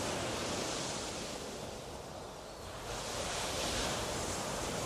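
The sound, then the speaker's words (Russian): Ocean waves surge around a ship in a dense, steady roar of rushing water. The sound dips slightly near the middle, then swells back up, with no voices. “Волны подбрасывали корабль, как пробку.”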